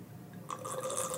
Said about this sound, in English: And what you're hearing is just some oxygen that's being poured into that wine.